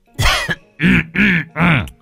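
A man coughing inside the house, a run of four harsh, throaty, voiced coughs in quick succession, loud and close, with no talk around them.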